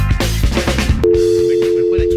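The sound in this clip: A telephone call tone, a single steady, even hum that begins partway through and holds to the end, following and partly under lively voices talking.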